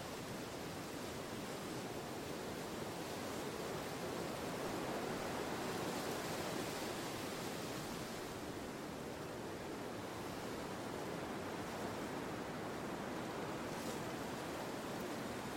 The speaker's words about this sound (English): The tide is actually quite low, but the wind has pushed the sea much higher up the shore.